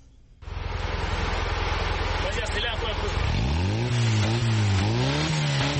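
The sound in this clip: Engine of a small blue pickup truck built from recycled parts, driving through the streets of Bafoussam. It bursts into a loud, steady drone after half a second, then from about three seconds the pitch climbs and wavers as the revs rise.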